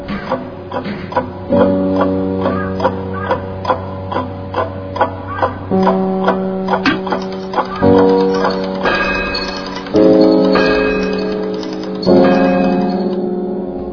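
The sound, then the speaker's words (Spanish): An alarm clock goes off at 3 a.m. in a school caretakers' room, giving a loud, continuous run of bright, bell-like chiming tones with regular repeated strikes over sustained ringing notes, with no voices. “Cuando el despertador sonó a las 3 de la madrugada”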